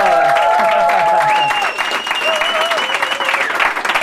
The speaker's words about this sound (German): bevor wir eine allgemeingültige Definition machen, brauchen wir nochmal euren Applaus